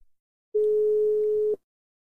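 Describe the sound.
Telephone ringing tone heard while placing a call: one steady, clean beep lasting about a second, alone, with silence before and after.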